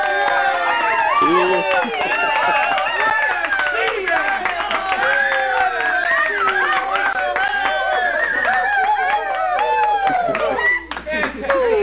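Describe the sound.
Audience applause breaks out at a live comedy-style show: continuous clapping runs throughout while several people talk loudly over it.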